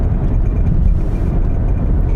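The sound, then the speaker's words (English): Steady low engine and road rumble from a car driving into the town of Van Buren, a loud, constant drone with no clear changes and no voices. “We are entering Van Buren right now. We're driving into it”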